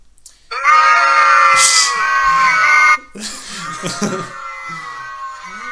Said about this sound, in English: So, in case you can't tell, we're filming in front of a live audience right now, and they just don't like what we're saying.